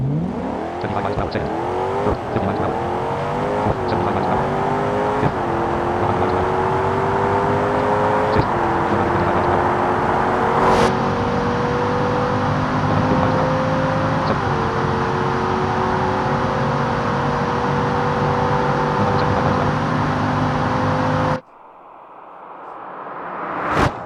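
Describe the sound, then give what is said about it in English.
A car engine in sport mode revs up through the gears. Its tone climbs and then drops at each of several quick shifts, settles into a long, steady, high drone, and cuts off abruptly near the end. “And I'm going to put it into sport mode. That's going to give us a little bit longer shifts, so I can act like that.”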